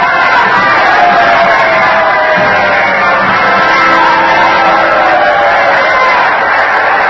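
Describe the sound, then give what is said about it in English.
Theater audience cheering loudly and steadily as President Lincoln arrives in his box, a dense, unbroken crowd roar with shouts mixed in throughout. “I'm going to open them both and let you hear what's going on.”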